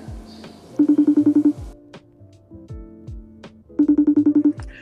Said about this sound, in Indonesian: Oke, kita coba hubungi.